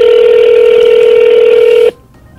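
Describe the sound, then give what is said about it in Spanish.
A telephone ringing tone sounds while a call is placed to a municipal service line: one loud, steady, unbroken tone that cuts off abruptly into near silence. “Está marcando, está llamando 072.”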